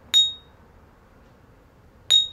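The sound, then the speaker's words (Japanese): Two bright, high-pitched pings from a glass yuzu-drink bottle being struck so it rings, spaced about two seconds apart. Each clear ding decays quickly into near silence. “ゆずっこの瓶を鳴らす音。”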